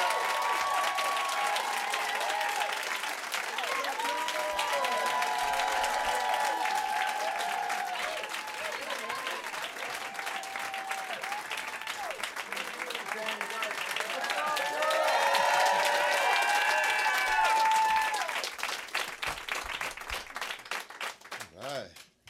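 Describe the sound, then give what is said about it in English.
A studio audience applauds a band taking the stage at a live studio session, with long, sustained clapping mixed with whoops and cheers. It swells near the end, then fades away. “Guys, put your hands together.”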